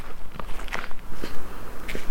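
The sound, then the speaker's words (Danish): Footsteps of someone walking at night down a dead-end street toward a park: an even series of crisp, gritty steps at a steady pace, moderately loud, with no talk. “Jeg går ned mod parken for enden af den blinde vej.”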